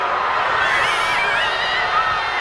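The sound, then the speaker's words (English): Crowd cheering in an eruption of joy, a loud, continuous wash of whoops, shouts and excited voices holding steady throughout. “Erupted in cheers.”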